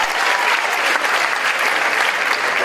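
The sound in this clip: Audience applause, a loud, thick and unbroken patter of many hands clapping at a constant level from start to finish, with only faint traces of voices.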